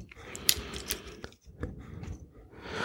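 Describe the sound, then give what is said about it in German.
A few faint plastic clicks, snaps and scraping rattles as a battery is fitted into a small, inexpensive electronics kit. There are brief sharp ticks between quieter handling noise, with no voices. “Jetzt baue ich vom anderen auch noch die Batterie.”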